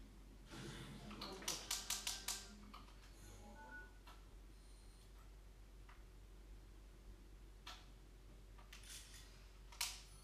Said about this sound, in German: Foto vom Schleim. Wie er gerade auf mich zuspringt.